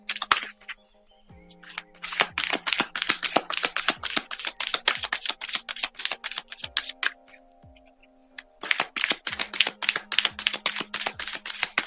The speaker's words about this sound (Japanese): カードシャッフルします。少々お待ちください。